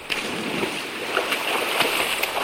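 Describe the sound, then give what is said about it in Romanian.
Someone wades into a river, and water splashes and sloshes around them. The watery churn is continuous and fairly loud, with a few sharper splashes rising above it. “Atunci eu intru puțin în râu. Mi s-a făcut o poftă de bălăceală.”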